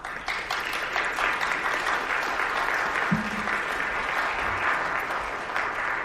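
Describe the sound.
Audience applause at a civic club forum as a speaker is welcomed back for closing remarks: a thick, continuous patter of many hands clapping at a steady, moderate level.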